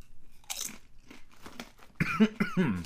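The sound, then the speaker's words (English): Crunching and chewing of a Packy Haunted Ghost Pepper spicy chip: a few crisp, brittle bites followed by chewing, fairly faint. “So taste test that. Okay. Back. So this one is the Packy Haunted Ghost Pepper, and this one is freaking hot.”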